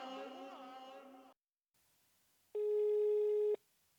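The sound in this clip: A telephone ringback tone heard while a call is placed, one steady buzzy ring lasting about a second and stopping abruptly, following a short earlier sound and a silent pause.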